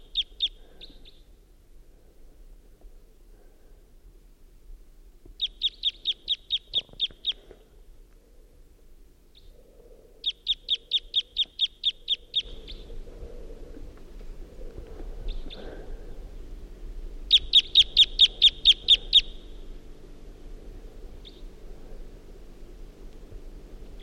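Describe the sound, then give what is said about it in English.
A wild bird gives type 2 calls and song at dawn: several bursts of rapid, high-pitched repeated notes, with a few short single calls between them, fairly faint over a low steady hum that grows louder partway through. “It's 5:50 a.m. and there's a wild bird around who is giving type 2 calls and song.”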